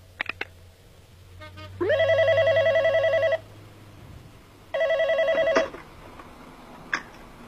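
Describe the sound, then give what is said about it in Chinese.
Telephone ringing in a surveillance recording of a call to a hotel: two loud bursts of electronic ring tone, the first longer than the second, with clicks before and after and no talk. “自称太子港行动指挥中心的电话又打进了酒店，这是监听录音，请听。”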